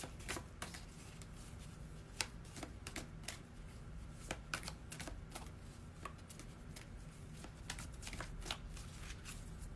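Playing cards are shuffled during a card reading, making a rapid, faint patter of crisp clicks and snaps that runs on without a break.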